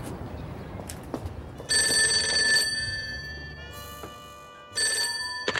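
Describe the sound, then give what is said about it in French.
Telephone ringing with an electronic ringtone: a few loud bursts of bright, high, warbling tones with short gaps between them, and no voices. “Oui, allô? Oui, Gaspard. Pourquoi vous me téléphonez à une heure pareille?”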